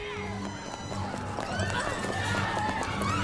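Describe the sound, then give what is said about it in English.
People run through a shopping mall, their rapid footsteps pattering in a quick rhythm, mixed with music and other busy background noise. “Elsewhere, Hannah and Brock are running through the mall.”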